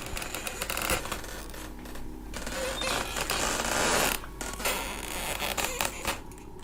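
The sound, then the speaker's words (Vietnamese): Footsteps creak on a slatted wooden floor, a faint, dense run of creaks and clicks that continues throughout with brief pauses. “Tiếng bước chân của Cường dẫm lên trên cái liếp sàn nhà, nó vang lên những tiếng cọt kẹt”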